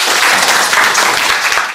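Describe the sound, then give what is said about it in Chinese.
Audience applause, loud and dense, a continuous mass of claps lasting just under two seconds and then cutting off. “好，大家来给他掌声鼓励一下。”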